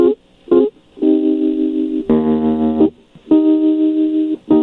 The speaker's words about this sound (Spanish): Les puso música de contestación.